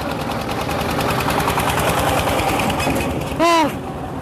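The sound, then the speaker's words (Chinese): A tractor engine, of the kind used in rural China to haul cement and sand for house building, runs with a steady rapid chugging knock and a rough, continuous mechanical drone throughout. “这种拖拉机它一般是会用来运输水泥沙子等一些材料来建房子。”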